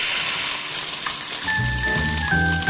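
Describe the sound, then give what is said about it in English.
An egg frying in a pan, used as a sound effect in a radio ad, gives a loud, steady crackling sizzle throughout. Low sustained tones come in partway through. “This Halloween, remember, if you throw an egg, you're gonna fry.”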